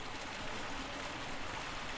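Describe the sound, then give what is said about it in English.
Splashing fountains fill a marble-lined swimming pool, producing a steady, even rush of falling water with no clear breaks. “Splashing fountains fill a marble-lined swimming pool fit for the gods.”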